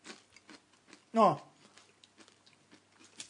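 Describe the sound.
Crunchy chewing of a rice cracker with red bean paste: many faint, crisp crunches and ticks in an irregular rhythm, broken once by a short, louder voiced sound.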